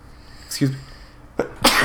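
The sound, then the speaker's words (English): A man sneezes loudly and abruptly, with a brief sharp breath before a forceful final burst, and no talk in between. “excuse me. Whew. Have I ever sneezed on the show before?”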